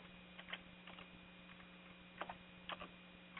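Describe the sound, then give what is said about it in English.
Faint typing on a computer keyboard: small, uneven clusters of soft key clicks over a steady electrical hum. “forgive me for you having to hear the typing while we go”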